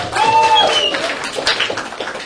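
Applause from an audience as a guest is introduced at a launch event for an Orthodox youth foundation, a loud burst of clapping from many hands that eases off somewhat toward the end.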